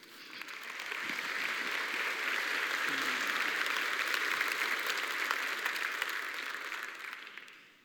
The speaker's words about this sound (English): So if you would, please join me in giving a warm central welcome to my friend, Larry Johnson.